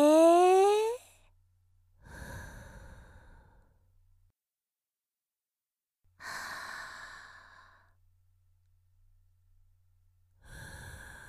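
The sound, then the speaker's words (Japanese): Slow breathing in and out during a guided relaxation exercise: long, soft, airy breaths, each lasting a couple of seconds and separated by quiet pauses. “吸って、吐いて、”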